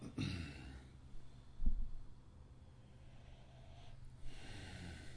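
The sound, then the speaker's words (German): Slow, deep breathing in and out, very quiet: a few soft, airy breaths spaced several seconds apart, each a gentle rush of air with a slightly snorting, wheezy edge, with no talk. “Ganz tief, ein paar Mal ganz tief, ein und aus, so tief wie es geht. Ganz voll die Lunge.”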